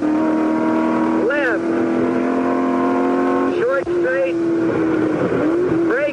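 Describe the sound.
Race car engine driving through a fast right and into S-bends in fourth gear: a steady, loud, buzzing drone with a few brief swoops in pitch as the revs dip and climb again.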